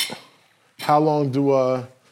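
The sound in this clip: A waffle maker being flipped over while a waffle cooks. A brief clatter comes first, then a sustained, tonal metallic scraping lasts about a second before it stops.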